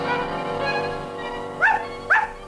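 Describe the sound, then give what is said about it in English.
A dog gives two short, sharp barks in quick succession over a steady, continuous tonal background, with no voices. “She's in a dog hotel on a honeymoon with my dog.”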